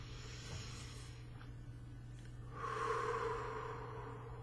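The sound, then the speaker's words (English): One deep breath, a soft, airy rush that swells midway and then fades, faint over a steady low hum. “Take a deep breath.”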